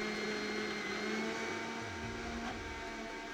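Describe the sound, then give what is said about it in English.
Green tobacco leaves being ground up in a large blender to extract protein make a steady, unbroken whirring drone. It holds an even level throughout, with no talk. “That's the sound of green tobacco leaves being ground up in a large blender so that the protein, called fraction 1, can be removed.”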